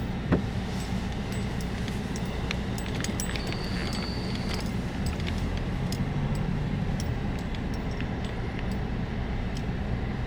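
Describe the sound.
A vehicle drives across a farm field toward its far end. A steady, low motor rumble continues throughout, with scattered light clicks and rattles over it.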